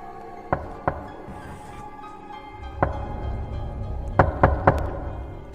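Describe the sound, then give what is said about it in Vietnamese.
Dry knocks land on a door leading out to the porch: a few isolated raps, then a quick cluster of three sharp knocks near the end, over a faint low background. “Ba tiếng gõ ở cánh cửa thông ra ngoài hiên vang lên khô khốc.”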